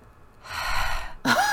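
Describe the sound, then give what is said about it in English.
A person gasps a sharp, breathy inhale, imitating a breath caught on a digital recorder left alone in a library's gallery room. The rushing breath builds, then ends in a quick vocal catch. “somebody could have walked up to it and put that breath in there”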